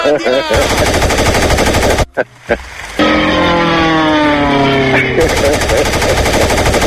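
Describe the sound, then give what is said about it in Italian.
A machine-gun fire sound effect plays as loud, rapid, continuous bursts of shots. The fire breaks off briefly near the middle and then resumes just as dense and relentless until the end. “Attenzione signore! Non sparare più, fermo! Colpito e affondato!”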